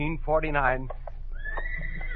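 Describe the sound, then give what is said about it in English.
A horse whinnies while pulling a mail buggy: one loud, wavering neigh with a shaky, bright tone, followed by quieter, softer sounds. “Get up, Dobbin. Get up now. Mail by a horse and buggy.”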